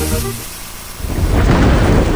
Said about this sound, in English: Storm season is coming.